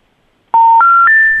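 Touch-tone telephone keypad beeps as a number is dialled to call someone back: three steady tones in quick succession, each a step higher in pitch than the last, loud and clean with no voices.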